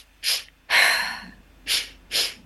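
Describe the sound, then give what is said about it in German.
Rhythmic Sufi breathing exercise: four forceful, airy breaths in a quick pulsing pattern, the second noticeably longer than the others, each loud and separated by brief pauses. “Und es gibt die Sufi-Atmung, die begleiten wir auch immer tatsächlich rhythmisch. Also es gibt ein Lied, was wir dazu einspielen, aber nichtsdestotrotz, und das kann jeder eigentlich jederzeit machen, Das ist eine Atmung, die geht so.”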